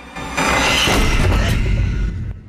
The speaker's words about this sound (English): The upper attic door slams shut behind her.